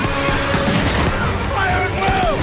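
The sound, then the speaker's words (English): Barrage of rifle shots fired at charging samurai on horseback, a dense, continuous volley of gunfire with a voice talking over it. “The riflemen follow Bagley's first shot with a barrage of rounds, knocking samurai from their saddles.”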